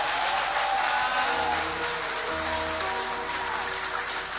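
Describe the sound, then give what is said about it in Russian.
Applause from a church audience builds into a dense, rain-like wash of clapping that holds steady over low sustained tones for several seconds. “Давайте поприветствуем аплодисментами.”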